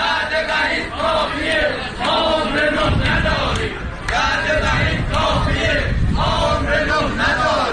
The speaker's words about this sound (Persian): صدای اعتراض بازنشستگان مخابرات تبریز در روز دوشنبه.